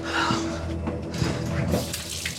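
Hot bath water runs from a tap in a steady, rushing stream, a continuous splashy flow at an even loudness throughout.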